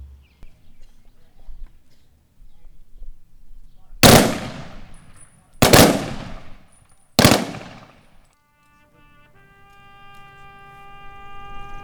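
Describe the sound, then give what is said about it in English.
Rifle salute volleys at a veterans' memorial ceremony: three loud, sharp cracks at roughly even intervals, each trailing off in a brief decay, then quiet and the start of sustained musical tones. “We will now honor our departed veterans with the rifle salute”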